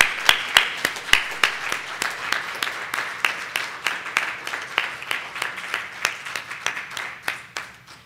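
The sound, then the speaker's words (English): An audience applauds to thank the speakers, with crisp individual hand claps standing out over a steady wash of clapping that carries on at an even level throughout. “Let's thank all of the speakers again.”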